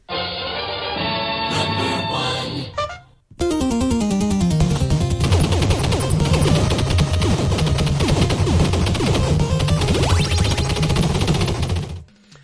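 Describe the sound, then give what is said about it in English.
Contra video game gunfire from the single-shot rifle and machine gun: dense, rapid electronic shot bursts crackling continuously over loud chiptune music, after a short musical opening. “that was Contra. The weapons were the single-shot rifle and the machine gun.”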